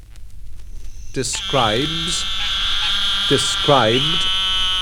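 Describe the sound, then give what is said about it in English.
An eastern narrow-mouthed toad calls with a steady, high, nasal buzz that sets in after a moment and holds unbroken to the end. “This is a call of the eastern narrow-mouthed toad, Microhyla carolinensis.”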